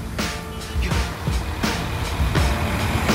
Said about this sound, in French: C'est le départ bien ordonné de la Noria des bus, des cars, la ligne 13 pour Nanterre,